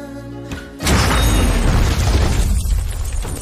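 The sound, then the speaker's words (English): Two grenades exploding inside a diner: a sudden loud blast that swells into a dense, sustained roaring rumble lasting to the end. “Stopping at the entrance, he pulls the pin on two grenades and sends them skittering along the floor into the diner, then leaves.”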